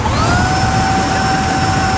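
A vacuum cleaner runs in one loud, unbroken drone, its airy rush topped by steady whining tones that hold level throughout.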